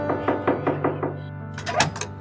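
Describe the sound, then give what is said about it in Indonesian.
Knocking on the door of a house: a quick, evenly spaced series of firm knocks over a soft, sustained musical background, then a few sharper bursts of noise. “Pada suatu hari, ada seorang tamu mengetuk pintu rumahnya.”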